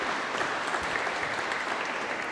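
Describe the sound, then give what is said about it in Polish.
Applause from an audience welcoming a newly married couple, many hands clapping in a dense, even wash of sound throughout. “Wielkie brawa.”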